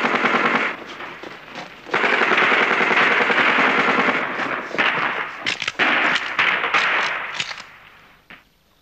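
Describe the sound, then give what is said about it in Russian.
Heavy gunfire in a radio drama as White Guards run to a firing position and shoot back. Loud, sustained automatic bursts rattle almost without pause, then break into scattered shots before fading out. “Белогвардейцы бегут на огневую позицию, стреляют в ответ.”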